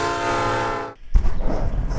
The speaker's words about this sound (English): And I'm on the verge, next to a busy railway line, filming and viewing trains through my binoculars.